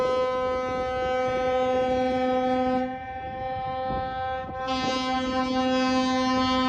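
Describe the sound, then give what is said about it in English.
Horns honking continuously during a port blockade, a loud, steady harmonic drone that thins briefly midway before returning at full strength, with no talk. “The honking is continuing.”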